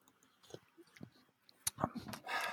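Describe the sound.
Someone chews cold Gésa with soft, faint, irregular chewing clicks and mouth smacks, growing denser and louder toward the end.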